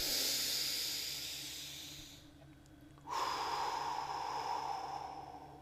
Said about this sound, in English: Take a deep breath in.